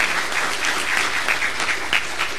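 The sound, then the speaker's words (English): An audience in a church service applauds young people who have just spoken about their faith, a dense, even clapping that holds steady throughout without pauses. “I think they need another round of applause just for them doing what they did”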